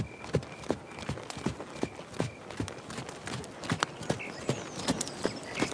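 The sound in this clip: Horse hooves clip-clopping as riders head home, a faint, steady run of many sharp, uneven hoofbeats with no voices.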